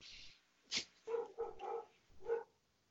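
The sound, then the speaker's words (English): A dog barks a few times, faint and uneven. The short barks come in an irregular burst, with one higher yelp near the start. “we still have the dog. Yeah, barking.”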